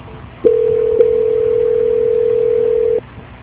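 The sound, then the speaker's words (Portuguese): A steady telephone tone plays while a call is being transferred, one even, unbroken hum lasting about two and a half seconds over faint line hiss, with soft clicks at its start and just after. “Vou transferir a sua ligação. Só um minuto, por favor.”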